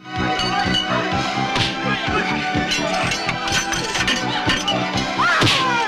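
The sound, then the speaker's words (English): Fight sounds from a 1990 martial arts film, including a back kick landing: a rapid flurry of whacks, thuds and crashing impacts over a busy, loud soundtrack. “That was a nice kick right there. Back kick.”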